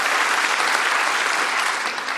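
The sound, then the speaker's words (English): Dense, steady applause from a party conference crowd in Birmingham fills the whole stretch as a continuous, loud wash of clapping that eases only slightly toward the end. “Big smiles and big applause for a leader adored by this crowd, but still struggling to make a mark beyond.”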